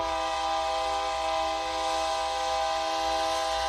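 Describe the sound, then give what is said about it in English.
A commuter train's horn on the rail line between Albuquerque and Santa Fe, New Mexico, sounds as one loud, steady, unbroken chord that holds at an even pitch. “That's our train that runs between central New Mexico, where Albuquerque is and where we live, north to Santa Fe, our state capital.”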